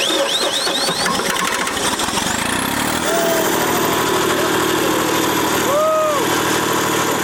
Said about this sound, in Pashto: جنراتور چلانه سو، میدان رڼا سو